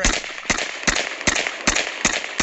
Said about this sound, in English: She's shooting an AK now because this lady's like 90 years old.